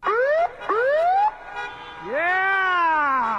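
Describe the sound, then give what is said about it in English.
A fire truck siren wails during a celebration parade through a coastal Alaskan town. Two short rising whoops are followed by a longer sweep that climbs and then holds a loud, steady wail. “Wesley Verham rode atop a fire truck with sirens wailing through the picturesque coastal Alaskan community of Haines on Sunday.”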